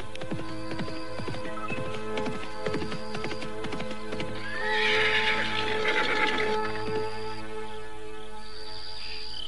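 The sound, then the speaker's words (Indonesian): A horse galloping toward its rider: a run of sharp hoof strikes early on, then a loud whinny swelling in the middle before the sound settles again. “Paramita tetap tidak menyadari keadaan dirinya ketika seekor kuda dari arah depannya berderap menuju ke arah dirinya.”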